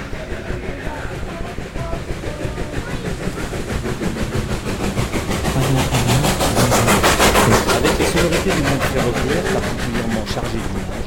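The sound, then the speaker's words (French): A train pulls away from the platform at Gliers station with a steady, rhythmic clatter of wheels over rail joints. The rumble swells in the middle and then eases slightly. “La gare de Gliers apporte une dimension plus directement cinématographique à notre collection de paysages sonores. Il suffit que ce jour-là, un couple de Japonais soit présent sur le quai et laisse partir le train sans y monter, pour qu'on se sente aussitôt dans un film.”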